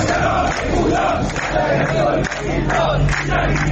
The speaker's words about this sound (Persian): این صدای اعتراض کارگران گروه ملی صنعتی فولاد اهواز است.